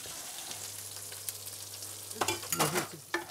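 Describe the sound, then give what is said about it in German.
Food sizzles as it is fried again in a pan on an old stove: a steady soft hiss, joined near the end by a few louder scraping stirs, with a low hum beneath and no talk. “Braten wir nochmal an.”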